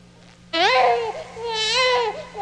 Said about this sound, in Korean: 아기는 태어나자마자 왜 울지?